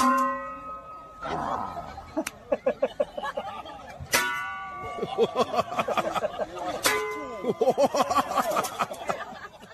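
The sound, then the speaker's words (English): Two men dressed as knights take turns hitting each other's helmets with metal skillets, giving a few sharp, ringing clangs spaced seconds apart amid crowd chatter, laughter and talking. “Two guys dressed as knights doing a pan-slapping contest.”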